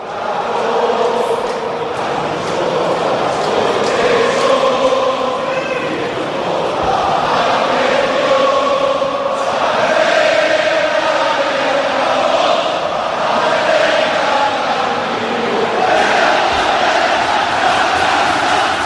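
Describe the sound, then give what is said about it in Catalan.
Stadium crowd at Balaídos singing the Celta Vigo anthem with the players on the pitch and fans holding up scarves, massed voices sustaining loud, drawn-out sung notes that rise and fall across the whole stretch. “sona l'himne del Celta. Mira, l'escoltarem, el públic fa com fan a tants altres estadis, entapissant les graderies, desplegant les bufandes.”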